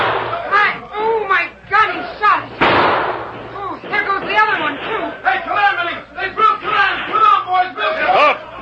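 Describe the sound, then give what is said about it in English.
A gunshot cracks out once during a western radio-drama shootout, surrounded by excited, overlapping shouting voices. “Hold your fire. I haven't been aiming to kill. If you don't stop shooting, we'll level our sights.”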